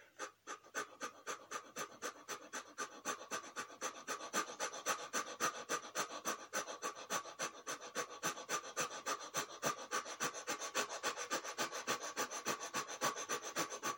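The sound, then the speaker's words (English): Quick, rapid breaths in a breathing exercise done while holding a straight, upright pose: many short, even panting pulses in a steady fast rhythm, fairly faint and with no talk. “And now we're going to move into those quick breaths, holding that straight, dignified pose into the quick breath.”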